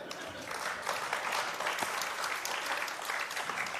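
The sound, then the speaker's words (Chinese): Audience applause, dense and even clapping that holds at a steady, fairly loud level throughout with no pauses or swells. “这么多朋友的掌声，都是给谁的吗？”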